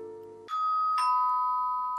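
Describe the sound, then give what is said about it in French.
A two-tone doorbell chime rings at the front door of a dacha: one bright note strikes, then a second, slightly lower note follows and rings on loudly and evenly. “On vient donc de sonner à la porte de la datcha.”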